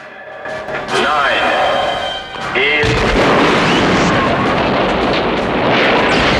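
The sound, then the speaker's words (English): A heavy gunshot boom from a gun fired during a James Bond action scene bursts in after a whining tonal sound, then carries into a long, loud, rumbling roar, with speech audible in the opening seconds. “Tiffany fires the gun and the recoil sends her flying off the platform.”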